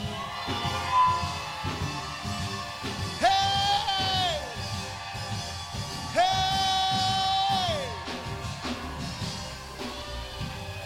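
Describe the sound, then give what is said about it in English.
A church audience shouts together on cue, raising a long, sustained roar of voices with whoops and yells that swells loudly twice before easing off. “Shout like you're calling your body into order. Shout like you're calling discouragement out of place and you're calling your life into order. One, two, three, go!”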